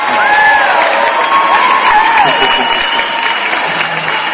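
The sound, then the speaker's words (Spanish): Loud applause and cheering from a crowd, a thick, unbroken roar of clapping with a couple of high whistled or whooped tones gliding over it near the start and middle. “¿Y los aplausos?”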